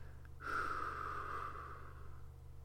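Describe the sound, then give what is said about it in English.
Soft, steady exhale released after a held breath, a long airy rush that begins abruptly and slowly fades over about two seconds, faint and alone with no talk. “Hold your breath, baby. There we go. And breathe out again.”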